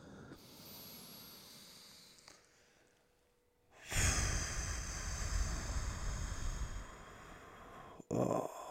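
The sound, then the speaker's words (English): A deep breath in through the nose, a soft, quiet inhale, followed by a long, loud exhale out through the mouth that rushes steadily before fading. “We're going to take one deep breath in through the nose, out through the mouth.”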